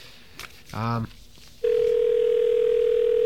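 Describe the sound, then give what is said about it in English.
Telephone ringing tone on a line through a new 5ESS telephone exchange switch. A click and a short buzzy burst come first, then a loud, steady, even tone that holds to the end. “So while we're listening to the rings of our brand new 5ESS”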